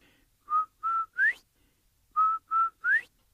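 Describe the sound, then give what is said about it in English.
A person whistles in imitation of a quail's call: two phrases of three clear notes each, separated by a pause. In each phrase the first two notes hold steady and the third slides upward in pitch. The whistling is heard alone. “So Quail takes a couple steps back And he makes that beautiful sound again.”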